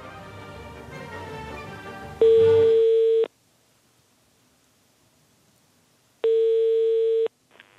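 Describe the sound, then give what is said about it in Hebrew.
Telephone ringback tone from a call placed to the Netanya municipality: two steady, buzzing ring bursts of about a second each, separated by a long silent gap, the first coming after fading background sound. “חיוג לעיריית נתניה.”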